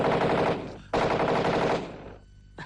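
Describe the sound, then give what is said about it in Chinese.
A voice imitates a Japanese warplane's machine-gun strafing: two long, loud rattling bursts, the second fading out, then the brief start of another. “日本鬼子的飞机啊，在天上是又是扫射又是扔炸弹”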